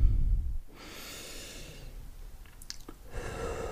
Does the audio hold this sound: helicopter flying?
no

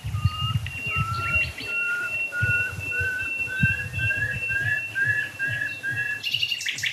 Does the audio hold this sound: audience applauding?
no

